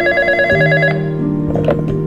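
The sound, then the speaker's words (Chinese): A telephone rings with a loud electronic tonal ring whose notes shift a few times, steady and with no voices over it. “老何正沉浸在自己的发财梦，没多久电话又响了起来，是好久没有联络的儿子永胜打来的”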